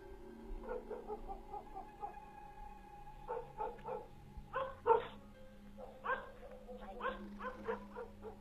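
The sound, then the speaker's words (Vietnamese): A black dog runs out of the house and barks toward the gate in many yapping, whiny barks, fairly faint and uneven in rhythm. “con chó mực từ trong nhà chạy ra. Nó hướng ra ngoài cổng mà sủa nhấm nha nhấm nhặng.”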